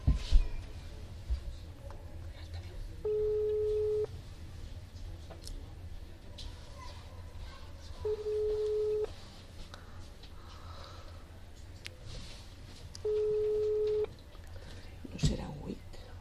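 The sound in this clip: Ringback tone on a telephone line while a call waits to be answered: three steady, mid-pitched beeps of about a second each, spaced evenly several seconds apart over a low, constant background hum.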